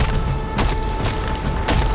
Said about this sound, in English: He lifted a foot and stomped as hard as he could.